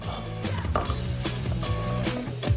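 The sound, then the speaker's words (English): A knife chops cabbage into chunks, landing as a few sharp, irregularly spaced knocks over a steady low background. “Onion done, now yambechu is cabbage. This, and this, and then let's chop it in chunks.”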